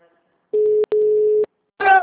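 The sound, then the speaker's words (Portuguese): A steady mid-pitched telephone ringing tone plays while a call is placed, lasting nearly a second with one brief break partway through, and a voice starts speaking right after it stops. “Tô ligando.”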